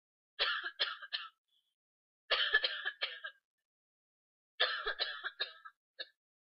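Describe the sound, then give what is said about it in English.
Dry coughing from a person: three bursts of several quick, harsh coughs separated by silent pauses, then one lone cough at the end. “There's a dry cough, which sounds something like this.”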